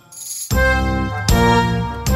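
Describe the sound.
A theatre's third-call chime before the show begins: bright ringing tones struck one after another at an even pace, each note sustaining loudly into the next.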